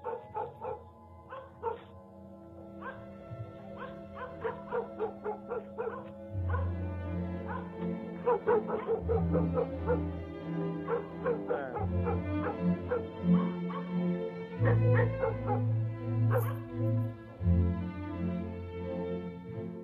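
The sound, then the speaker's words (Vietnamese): Dogs bark and yip in a village at night toward the fields, in many short, irregular bursts of varying pitch mixed with whimpering, continuing throughout. “Đâu đó ở trong làng chỉ còn lại tiếng chó cắn ma hướng ra phía cánh đồng nhấm nha nhấm nhẳng đến rợn người.”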